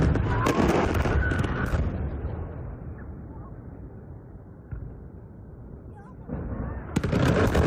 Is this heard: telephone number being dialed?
no